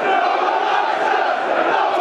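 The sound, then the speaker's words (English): A football crowd at The Den roars after a Millwall goal against Bolton, a loud, sustained wall of voices and chanting that holds steady for the whole stretch. “1-0 Millwall. Bolton are going to have to come out of their shell now, listeners. That's got the den livened up as well. It's brought the crowd into play.”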